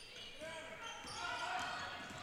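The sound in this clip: A basketball being dribbled out top during a girls' high school game, Marine City at St. Clair: several dull bounces, faint beneath a steady wash of gym crowd noise.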